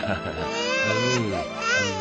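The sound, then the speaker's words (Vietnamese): A baby crying in continuous, wavering wails, the pitch sliding up and down through short sobbing bursts. “đừng khóc, đừng khóc,”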